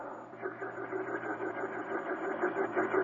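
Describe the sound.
A man's voice imitates the faint, soft sound of a craft's mushroom-type vents rotating in opposite circles underneath it: a low, steady droning hum with slight wavering, sustained and quiet throughout.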